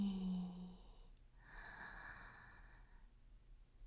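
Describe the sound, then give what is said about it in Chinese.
Faint breathing in and out: a short soft breath followed by a longer, airy breath of about a second and a half, then quiet. “吸气，吐气，吸气，”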